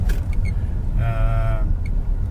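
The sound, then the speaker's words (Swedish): Cars passing behind the spot, heard as a steady low rumble of traffic that holds through the whole stretch, with a brief faint whine rising above it midway. “Och bilar bakom också.”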